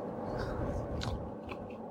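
Soft chewing of a freshly made buckwheat blin, with faint moist bites and crunches scattered over a low background rumble.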